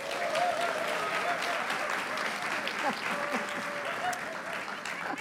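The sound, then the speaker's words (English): Sustained audience applause welcoming a speaker to a book conversation event, dense, even clapping that holds at a steady level for the whole stretch without any voice. “Please put your hands together for Mary Garden.”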